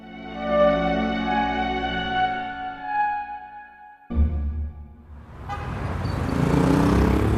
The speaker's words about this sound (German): Der schwarze Talbot fährt über die Champs-Élysées zum Étoile hinauf.